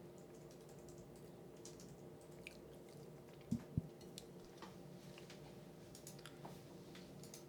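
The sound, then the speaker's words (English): Soft typing on a computer keyboard: faint scattered key clicks under a quiet low hum, with two sharper, louder taps close together midway, and no talking. “Pull up. Open a tab. Show this for the live stream and just type in Domino's hotspots.”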